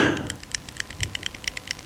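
A pen being clicked: many quick, light clicks in a fairly regular rhythm, faint overall, after a brief soft noise at the start.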